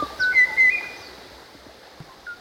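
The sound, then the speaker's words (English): Kauai o'o song from an extinct Hawaiian bird: a few clear, fluty whistled notes, brighter near the start, then fainter, more scattered calls with quiet gaps between them. “The McCauly Library contains recordings of animals nobody will ever hear again. Among extinct recordings, we have the Kauai O'o.”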